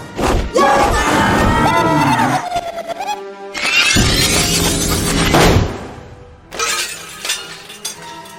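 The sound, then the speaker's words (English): Contained Quake, a video game attack effect unleashed by a boss in its final form, bursts out as loud glassy shattering and crashing with heavy thuds. A sweeping tone rises in the middle, and several sharp impacts follow. “Full last resort protocol used contained quake.”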